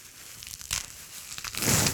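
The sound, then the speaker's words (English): Fresh parsley is cut for a salad, making soft crisp rustles and crunches in a few short bursts that build to a louder, fuller crunch at the end, with no voices. “I'm a big fan of parsley in salads. So we'll just cut a little here.”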